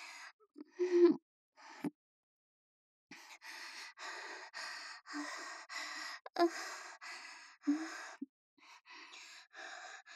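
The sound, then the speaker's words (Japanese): Heavy panting after physical exertion: a long run of harsh, breathy gasps and rapid breaths, mostly loud and steady, with a few brief pauses between bursts. “すっごいまだ心臓バクバクしてる。息切れも止まんないや。”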